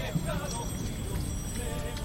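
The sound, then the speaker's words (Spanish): Mules clip-clopping as they haul a cart up the ramp of a barge during a procession escorted by the Guardia Civil. Their steady hoofbeats run under a busy wash of crowd noise and voices. “para ayudar a que los mulos puedan jalar de este enganche, de esta carreta, para subirla como la han subido por la rampa de la barcaza”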